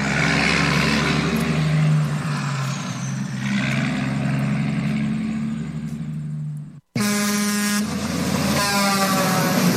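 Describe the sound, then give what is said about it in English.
A convoy of 18-wheeler trucks heading for Jackass Joe's in Crescent Junction, Utah, blares long sustained air horns over a low engine rumble, breaks off abruptly for a split second, then resumes with more brassy horn blasts. “Dang, looks like a bunch of us 18-wheelers are lining up now. Heck, we got us a convoy heading for Jackass Joe's in Crescent Junction, Utah.”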